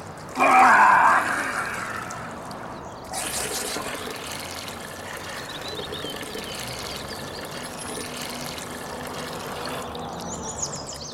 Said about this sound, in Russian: сливает ему из железного ковша воду, чтобы он умылся.